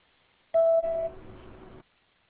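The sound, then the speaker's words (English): A voicemail beep after a technical sales rep's greeting: one loud, steady electronic tone that steps down to a lower, fainter tone and holds for about a second over a hissy noise floor. “Please leave a message after the tone and I'll return your call.”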